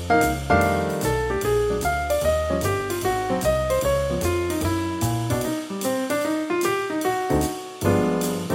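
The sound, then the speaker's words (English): Jazz piano solo with the soloist's downbeats landing a hair behind the rhythm section while offbeats stay on time; bright piano phrases ride over a steady, loud bass-and-drums swing throughout, purely instrumental. “In another version, the soloist's downbeat started just the tiniest bit behind the rhythm section, but their offbeats were not delayed. That sounds like this.”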